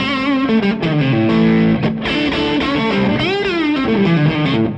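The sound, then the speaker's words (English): Electric guitar in single-coil pickup mode, switched by pulling out the tone knob, playing a distorted lead line of sustained notes with wide string bends and vibrato, loud and alone. “And then I can just pull the tone knob out and it goes single coil and then.”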